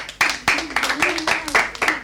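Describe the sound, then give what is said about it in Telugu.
Rhythmic hand claps at a school event after a student sings a folk song: sharp, evenly spaced claps keep a steady beat while a voice carries on underneath. “Sairam పాడిన పాట చాలా బాగుంది కదా, చప్పట్లు.”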